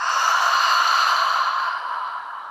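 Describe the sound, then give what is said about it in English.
A deep cleansing breath exhaled through an open mouth: one long, steady, airy rush of breath that starts loud and fades gradually, heard alone without talk. “Inhale through your nose. Open the mouth, let it go.”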